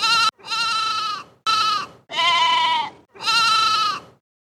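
Sheep bleat five times, each a loud, nasal, wavering call of similar length, the first cut short, separated by brief pauses and heard with no voices.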